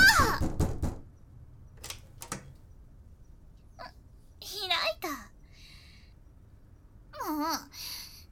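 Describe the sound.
Knocking on a shut door: a quick run of raps at the start, then a few isolated knocks, with a muffled young female voice calling out between them.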